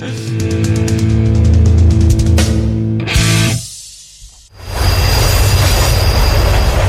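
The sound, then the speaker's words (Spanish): A metro carriage runs on an underground line, its wheels squealing in sustained high tones over a heavy rumble. The noise briefly drops away near the middle, then a loud, steady rolling roar returns. “Y tenemos con nosotros otros sucesos que acontecieron simultáneamente en aquel vagón de metro.”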